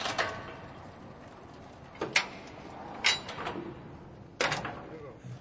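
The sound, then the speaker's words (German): Metal grate of an elevator cage opening at the bottom of a salt mine shaft: four faint metallic clanks and rattles spaced over several seconds, each one sharp at the start and quickly fading. “Wir sind unten. Das Gitter öffnet sich.”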